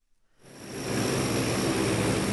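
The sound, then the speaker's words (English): Loud, steady roar of a hulking C-130 transport aircraft at the Viomar Air Base next to an international airport. The engine drone swells in quickly from near silence, then holds a broad, even rumble with no voices. “Here at the Viomar Air Base next to the international airport, evacuees from Tacloban are streaming off the back ramp of a hulking C-130 aircraft.”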